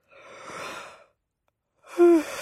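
A man yawns during a slow drive along an empty road at night: a long breathy exhalation, a short pause, then a louder yawn with a low voiced groan, heard alone.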